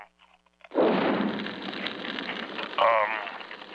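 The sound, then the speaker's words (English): Drapes burst into flames with a sudden roaring whoosh after a quiet moment. The fire roar sustains loudly and swells again later, with a voice briefly heard over it. “Now the drapes are on fire.”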